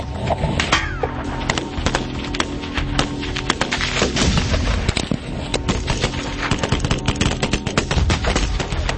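A .50 caliber gun firing in many sharp, loud, rapid bursts over a low rumbling bed. The shots come in quick, irregular succession from start to finish.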